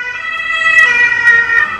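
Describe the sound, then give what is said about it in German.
Siren of an emergency vehicle driving past, a loud, steady high-pitched wail with strong layered overtones that holds for under two seconds with no talk over it. “Oh, sorry, wir haben ja einmal Sirenen.”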